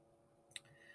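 A single faint computer mouse click, one short sharp tick against a very quiet background.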